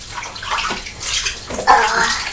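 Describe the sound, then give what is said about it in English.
Water splashing and pouring as a child's back is rinsed in a bathtub: irregular sloshes and trickles, with a louder gush near the end, and no voices heard. “Let's just rinse your back.”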